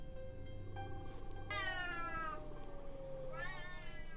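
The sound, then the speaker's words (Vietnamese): Cats meowing and yowling outdoors, long drawn-out wails that waver and slide in pitch, one stretching nearly two seconds before a second rising cry, heard over a steady low background hum. “Thế nhưng cô nhanh chóng nhận ra đây không phải là tiếng trẻ con, mà là tiếng mèo kêu.”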